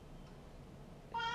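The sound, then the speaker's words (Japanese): A single short, bright cat meow sounds at the very end, after a second of faint, near-silent low hum. “猫がうるさいな。”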